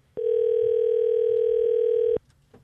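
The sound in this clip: A telephone ringback tone sounds on a call that goes unanswered: one steady, sustained beep lasting about two seconds, followed by quiet with faint background noise.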